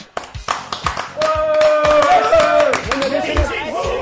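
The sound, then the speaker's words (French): Hands clap in a quick, sharp, rhythmic burst of several slaps. A loud voice then takes over while faint taps carry on beneath it. “Et je pense également qu'on pourrait t'applaudir, ouais!”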